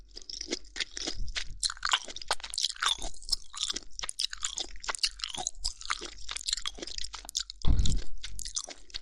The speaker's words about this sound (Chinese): 好脆呀，而且清蒸的也不会有鲜血流下来呢。啊，倒是有很多汁儿。